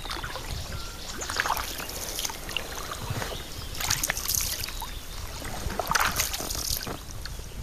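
A canoe paddle pulls through water, making a steady wash of sloshing and trickling with a few brighter splashes, continuous and moderately quiet throughout.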